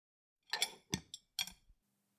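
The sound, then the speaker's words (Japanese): Knife and fork being set down on a table beside antique plates, giving three light metallic clinks and taps in quick succession, quiet and with no other sound. “じゃあテーブルにお皿を置くわね。続いてナイフとフォークをお皿の脇に置いて、”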